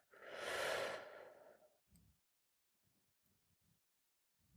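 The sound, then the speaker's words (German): A long, breathy exhale like a sigh during a guided breathing meditation. It sounds soft and airy, then gives way to a few faint, low, short sounds with quiet gaps between them. “Einatmen und ausatmen.”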